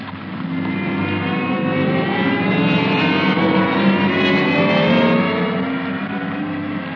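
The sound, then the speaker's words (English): An escalator runs as a sound effect in a radio comedy, giving a continuous mechanical hum and drone that swells slightly midway and plays alone without voices. “Well, these escalators are all right. Nice, comfortable ride.”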